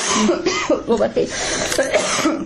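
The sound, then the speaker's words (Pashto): Coughing from an adult who is ill during cold weather: several short, rough, hoarse bursts in quick succession, loud and close together, with brief breaths between them. “ټوخېږم”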